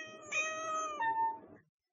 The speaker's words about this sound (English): 12 cats!